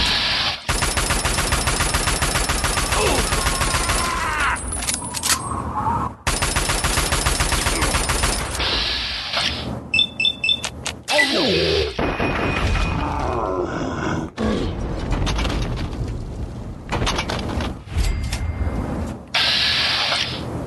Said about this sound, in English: There's another one, and he's got a freaking rocket launcher.